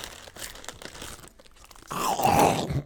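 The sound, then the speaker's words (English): Crunching of a potato chip, with crisp, crackly bites in short bursts. The sound turns louder and rougher toward the end. “You gotta hear what the chip crack.”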